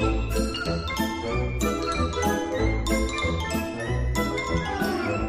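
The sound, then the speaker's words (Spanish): Music from the score of the silent film The Artist plays, with bright chiming, tinkling notes over deep, pulsing bass in a steady repeating rhythm. It stays full and even throughout, with no voices. “hubo una película que destacó entre todas, de la que solo podemos escuchar su banda sonora porque era muda.”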